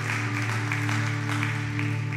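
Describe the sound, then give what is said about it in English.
A church audience claps in rhythm, soft regular claps over steady sustained musical tones, faint and even throughout. “It's okay to clap. Encourage somebody in the building today.”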